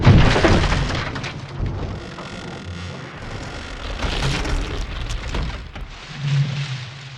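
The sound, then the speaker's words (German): Wooden ship's deck cracking and splitting as pack ice crushes the leaking hull, a dense, rumbling, grinding roar with scattered cracks, loudest at the start and swelling again in the middle and near the end. “Nach 9,5 Monaten im Griff des Packeises reißt eine Scholle das Ruderblatt und den Achtersteven der leckgeschlagenen Endurance ab. Und das Deck beginnt zu brechen.”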